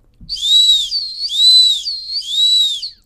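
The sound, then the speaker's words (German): Three long, high whistle blasts, a small search signal used in dog training, each tone swelling and fading evenly with short gaps between, loud and clear with no voices. “Und das war jetzt der kleine Suchenpfiff.”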